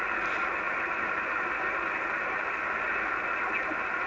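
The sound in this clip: A radio being tuned down across the dial through noise, giving a steady hiss and hum of static that holds at a constant level for about four seconds, with no voices.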